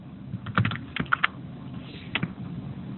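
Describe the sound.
Typing on a computer keyboard: irregular light key clicks, some in quick clusters and a few sharper taps, over a faint steady hiss with no talking.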